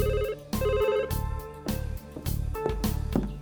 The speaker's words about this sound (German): als das Telefon läutete.